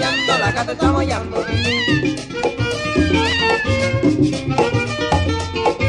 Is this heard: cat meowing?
yes